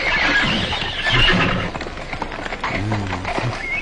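A horse whinnies in a rising, shaky squeal, with hooves clip-clopping underneath and a rough, noisy background.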